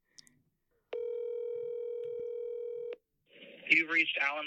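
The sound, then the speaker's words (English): A telephone call being placed: faint clicks, then a single steady buzzing tone that holds for about two seconds before a voice starts talking. “I'm making one more call, but I'm probably not going to answer.”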